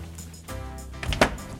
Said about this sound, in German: Das Zimmer von Paul ist gleich hier. Ich klopfe an.